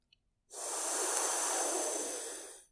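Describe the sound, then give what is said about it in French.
A long, steady exhale through both nostrils during a cooling pranayama breathing exercise. The airy hiss rises quickly, holds evenly for about two seconds, then fades, with nothing else heard. “Puis expirez longuement par le nez, par les deux narines. Cela donne”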